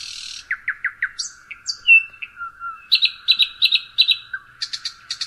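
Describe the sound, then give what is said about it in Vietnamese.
Nightingale song: a lively series of varied, high, sweet phrases, with quick repeated notes, short trills and rising and falling whistles, clear and fairly loud with no voices. “Đây là tiếng chim họa mi nè.”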